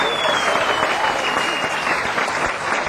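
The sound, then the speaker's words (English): Concert audience applauding: loud, dense clapping from a crowd that continues without a break at an even level from start to finish. “I think Al Rapon is in the audience tonight. If you are, let's give him a hand.”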